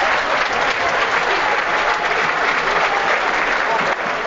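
Applause from a football stadium crowd during a Partizan versus OFK Beograd match, a dense, continuous clapping roar that stays loud and even for about four seconds.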